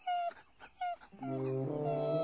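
A sick dog with a twisted stomach whimpers quietly, giving two short, high whines and then a longer, sustained, wavering whine that carries to the end.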